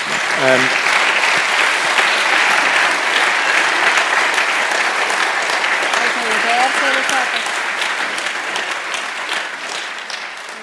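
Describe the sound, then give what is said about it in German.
A church audience applauds during a service with dense, steady clapping that holds throughout and eases slightly toward the end. A brief voice sounds over it near the start and again midway. “Und ich bitte um einen Applaus für Ihre Offenheit”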